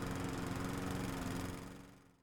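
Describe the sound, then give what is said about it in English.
A lawn mower engine runs with a loud, steady buzzing drone and rough vibration, then tapers off and fades near the end. “Howard fires up the mower and proceeds to mow the”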